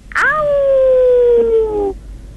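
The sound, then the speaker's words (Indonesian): A dog howls once, one long sustained tonal wail that drifts slightly lower in pitch before cutting off, loud and alone. “Kalau kata macam biasa kalau anjing menyalak tu kan bunyi macam ni”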